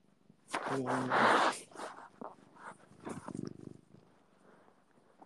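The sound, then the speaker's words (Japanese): A cat purrs loudly and close for about a second, a dense low rumble, then fainter, softer sounds follow. “これゴロゴロマシーンです”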